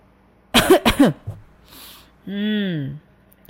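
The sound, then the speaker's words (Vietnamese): A voice imitates dry coughing: a quick cluster of harsh, throaty bursts. After a short pause comes a drawn-out voiced sound that falls slightly in pitch. “Bạch Cẩm Hy hướng mắt về phía Hàn Trầm, ho khan hai tiếng.”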